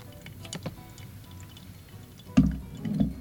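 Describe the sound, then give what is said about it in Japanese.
Hot water trickles over coffee grounds in a pour-over, spiralled clockwise from the centre outward for the final 75 cc. The stream is faint, with a few soft ticks and drips and a louder low gush near the end. “時計回りに注いでいきます。はい、1分30秒経ちましたので最後の 75cc を入れていきます。”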